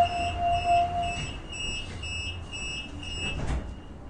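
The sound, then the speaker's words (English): Train door-closing warning at Glendalough station: steady, high-pitched electronic tones that break into short repeated pulses. A lower tone sounds during the first second, all over a faint rumble from the train. “Doors closing.”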